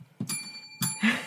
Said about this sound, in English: That deserved a double bell. A double bell.